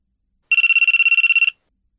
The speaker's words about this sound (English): I think it's always best to pick a sensible ringtone that won't annoy anyone.